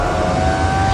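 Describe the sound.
The steady, motorised whine of an Audi's power window sounds as one sustained tone over a low hum, lasting about a second.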